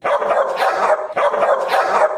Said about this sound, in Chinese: 呢只猎犬见到妖兔，就目露凶光望住妖兔，一边吠一边扑过去